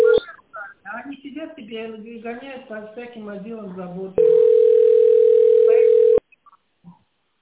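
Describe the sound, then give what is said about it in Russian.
Telephone dial tone while calling a number: a person speaks briefly, then a loud, steady, unbroken tone holds for about two seconds and cuts off, leaving near silence with a few faint clicks. “Вот я звоню, 0303 я звоню.”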